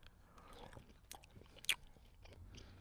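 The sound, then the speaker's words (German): Someone bites into and chews a rice dish with raisins and meat. The soft, faint mouth sounds include one sharper crunch midway, and no one talks. “Es schaut richtig appetitlich aus und jetzt beiße ich mal rein.”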